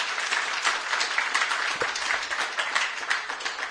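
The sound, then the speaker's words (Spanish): Audience applause from a crowd: dense, steady clapping that fills the whole stretch at a moderate, even level with no pauses, and no voices standing out above it. “Esta es la parte en que pueden estallar en aplausos. No hay... Ah, ahí está.”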